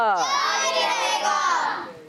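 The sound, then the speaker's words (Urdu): Crowd of voices chanting religious slogans in praise of Ala Hazrat at a Sunni gathering: one loud, sustained shout from many voices, layered and harmonic, fading away at the very end. “تو آئیں ہم لوگ جب تک نعرے لگا لیتے ہیں”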